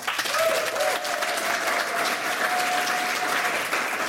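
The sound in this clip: A studio audience at an evening talk show claps steadily. The applause is a fairly soft, even wash of many hands, with a faint held voice tone running through it.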